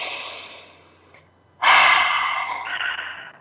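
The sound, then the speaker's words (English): A deep breath drawn in, a long breathy inhalation that starts suddenly after a brief quiet and stays fairly loud for nearly two seconds, with no talk around it. “Let's breathe that in.”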